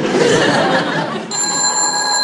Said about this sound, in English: Answer the phone